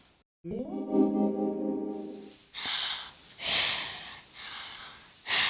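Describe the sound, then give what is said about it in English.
Breathing as a demonstration of the respiratory system: a sustained, tonal, wheeze-like sound followed by a series of loud, airy breaths in an even rhythm, with no talk. “Breathing. That's the sound of the respiratory system”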